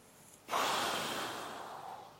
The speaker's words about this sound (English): Deep breath.